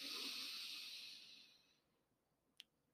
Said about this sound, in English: Let's all just take a nice deep breath in through our nose